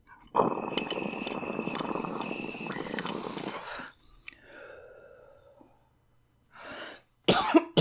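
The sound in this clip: Someone inhales cannabis concentrate in a long, steady hissing draw of about three and a half seconds, followed by quieter breathing and then a few harsh coughs.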